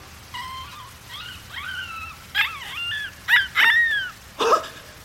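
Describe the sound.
A small puppy whimpers in thin, wavering whines, then lets out a few short, sharp yips and barks that grow louder toward the end. No voices are heard.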